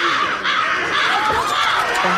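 Crows caw in a flock: many harsh, rasping calls overlap in a loud, continuous chorus with no clear gap between them.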